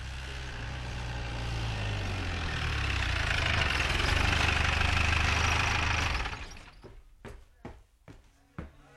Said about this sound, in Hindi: Motor हाथे में आ गई है, होशियार।